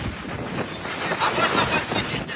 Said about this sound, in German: Die See ist stürmisch.